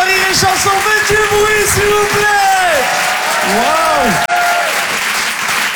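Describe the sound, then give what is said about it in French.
Live audience applause for a comedian being introduced at a comedy show in Paris: dense, steady clapping that stays loud throughout, with tonal vocal sounds riding over it and one sharp dip near the end. “Je vous demande d'applaudir, s'il vous plaît, Ethan Lalouze sur Rire et Chanson.”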